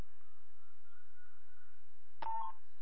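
During a phone call placed on hold, a telephone keypad button is pressed once. It gives a short electronic beep near the end, over faint background hiss.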